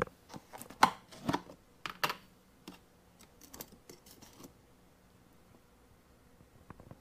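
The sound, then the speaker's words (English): Metal tongs grabbing peach slice candies, giving a few sharp clicks and light rustles over the first few seconds, then near quiet. “And these are tongs. So if you want to grab something like these peach slices,”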